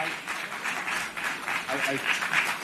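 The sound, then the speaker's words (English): Clapping from a packed audience at a US Senate hearing on social media as Mark Zuckerberg stands and apologizes to victims' families. The applause is steady and continuous, with a voice talking over it. “Zuckerberg is standing up. He's turned around. He's now facing the audience, which is packed. He's facing the audience. You can hear them clapping that he's standing up and giving an apology.”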